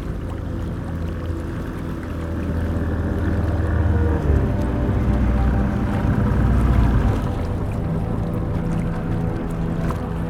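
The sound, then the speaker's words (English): A small skiff pulls up at a dock in the dark beside old ruined buildings, its low, steady engine and water rumble swelling a little midway and then holding as a continuous drone. “I hear Golgoa's skiff pulling at the dock.”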